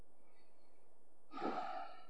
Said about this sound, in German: Wir fangen an mit einem bewussten Ein- und Ausatmen.